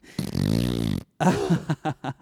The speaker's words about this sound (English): Have to fart right now.